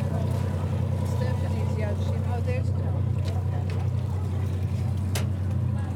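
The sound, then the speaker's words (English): The engines of the schooners Blue Star and Red Jacket run at the center dock during Port Townsend's Wooden Boat Festival, a steady low rumble that continues under a man talking. “I'm on the center dock here behind Blue Star and Red Jacket. Blue Star you hear running. Oh, they're both on.”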